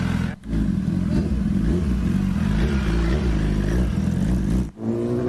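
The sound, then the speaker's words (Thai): Big bike motorcycle engine revving as it rides off on a barbecue delivery, a loud, steady, buzzing drone with layered harmonic whine, broken by two brief dips in power, with no talk. “มีบริการขี่บิ๊กไบค์เท่ๆแบบนี้ออกไปส่งบาร์บีคิวให้ลูกค้าถึงบ้านนะครับ”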